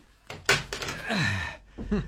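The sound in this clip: An office door being shut and locked, with a couple of firm thuds and knocks followed by a longer, wavering creak-like tone before one last brief clatter.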